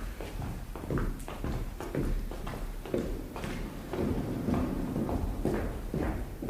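Footsteps in a radio drama scene: a steady run of many treading steps with soft thuds and scuffs, continuing at an even level throughout.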